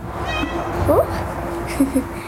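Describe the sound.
Cats meow while a young girl reads aloud to them. A few short, high, chirping meows come out clearly over a steady low background murmur.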